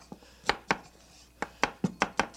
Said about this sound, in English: Then, when you're going to chop onions, once you've got your sharp knife, you want to be able to chop things very fast, like this.